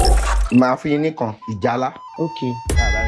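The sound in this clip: A game show ding marks a contestant's lost answer on a Nigerien TV quiz: a short, steady electronic tone sounds midway under continuous talk.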